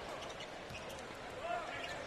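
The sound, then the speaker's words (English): A basketball is dribbled on the court during a Warriors game, its few dull bounces faint beneath steady crowd noise and voices. “On the far side with the dribble is Williams.”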